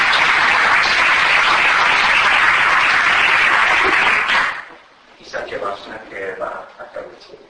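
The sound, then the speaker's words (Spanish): Audience applause for a speaker at the Valencia Buddhist Center: loud, dense clapping for about four and a half seconds that stops abruptly, followed by a single voice starting to speak. “Entonces, un fuerte aplauso para nuestro ponente.”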